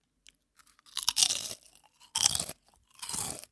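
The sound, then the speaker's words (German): Crunchy potato chips being bitten and chewed: three loud, dry crunching bursts with a few smaller crackles before the first, heard alone without talk. “Ich wollte schon immer mal Chips im Podcast essen und gucken, wie du reagierst.”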